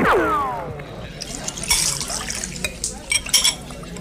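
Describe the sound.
Cachaça mixed with manioc flour is poured and stirred at a bar. A steady splashing pour is followed by several sharp glassy clinks and drips toward the end.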